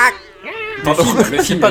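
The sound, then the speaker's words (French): A person imitates a zombie cat's meow, drawing out a wavering, tonal vocal yowl that gives way to louder, rougher vocal noise. “Bruits de chat plutôt, c'est plus intéressant. De chat zombie.”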